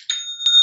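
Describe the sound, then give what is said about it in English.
Online store new-sale notification chime: quick, bright, bell-like dings with a clear, sustained ringing tone between strikes, loud and heard alone. “You should know what that is. That's the best kind of notification. That's the sound of another sale on Shopify.”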